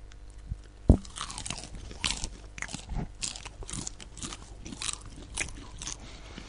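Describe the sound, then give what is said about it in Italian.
Someone munches popcorn with many crisp crunches and bites in an irregular chewing rhythm. One sharper crack stands out near the start, and the chewing is moderately loud, with no talking. “Infatti, se ci sentite sgranocchiare in questo modo,”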